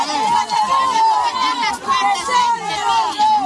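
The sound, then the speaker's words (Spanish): A crowd of Galician mothers protesting against drugs: a dense, loud, continuous mass of raised women's voices shouting and calling out together. “Este es el sonido de las madres gallegas contra la droga. Muchas de ellas se manifestaron por la rabia, por el dolor, de haber perdido a sus hijos por culpa de una sobredosis.”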